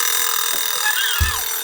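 An alarm clock rings with a steady, bright, bell-like buzz that holds at an even loudness throughout, with no pauses and no voices.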